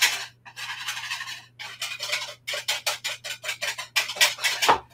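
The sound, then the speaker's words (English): Batter for blueberry pancakes being whisked with oil in a bowl: many rapid, rhythmic scraping strokes with short pauses, over a steady low hum. “So got the oil, I'm just gonna whisk all this together.”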